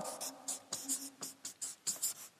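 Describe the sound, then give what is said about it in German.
Something written down by hand, about a dozen short scratchy strokes in quick, uneven rhythm, faint and without talk. “ich schreibe das mal hin”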